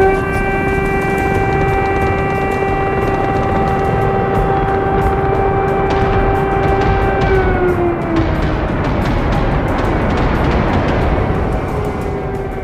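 Air raid sirens sound in Lviv during the Russian war, a loud, steady wailing tone that holds its pitch for several seconds and then sinks lower toward the end over constant rushing noise.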